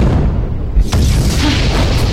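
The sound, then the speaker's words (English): A volcano booms after a grenade drops into its heart. One deep thud is followed by a loud, sustained rumbling roar that fills the rest of the short clip. “The volcano began to rumble deeply and then grow to a shouting roar.”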